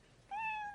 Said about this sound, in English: At the end of the minute, you know your minute's up when you hear the sound of a kitty.